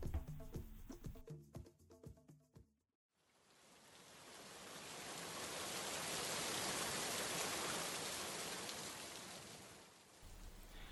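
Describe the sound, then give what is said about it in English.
Rain falls in Kenya's arid and semi-arid lands as a broad, soft hiss that swells to a steady peak and then eases off, after a short burst of plucked music and a moment of silence. “This is the sound of rain, a sound that is music to the ears of farmers and pastoralists in the ASEL counties.”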